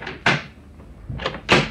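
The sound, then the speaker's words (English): A door in a bar is unlocked: a sharp clack, then after a pause two more clicks and clunks of the lock in quick succession. “Oh, just a moment, I'll unlock the door.”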